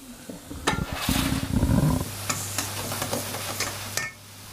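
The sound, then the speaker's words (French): Apples cook in sizzling melted butter, a soft frying hiss broken by a few sharp clicks of stirring, with a low steady hum underneath. “on va attendre que les pommes cuisent. On entend un petit peu.”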